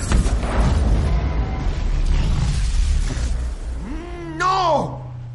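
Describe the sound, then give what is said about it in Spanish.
A tank exploding during a science-fiction action scene: a dense, loud, low roar lasts about four seconds, then a whining tone rises and falls. “El tanque explota.”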